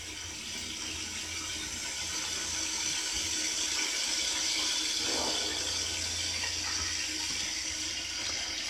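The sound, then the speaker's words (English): Water runs steadily from a faucet into a sink as paint is washed off, making a continuous rushing hiss at moderate level with no voices. “Oh, he must have washed the paint off. He washed the paint off at the sink.”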